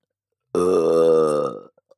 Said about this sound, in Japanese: 私にたくさんゲップさせたくて、そのために喉を改造したんでしょう。